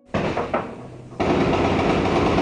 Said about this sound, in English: Roger, that was uh, that was some sort of rifle uh, grenade.